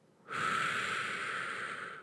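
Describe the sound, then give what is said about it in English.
A deep breath drawn in through the nose, one steady, fairly quiet airy inhale that starts abruptly and lasts nearly two seconds, heard alone. “Close your eyes and take a deep breath in through your nose and count to four”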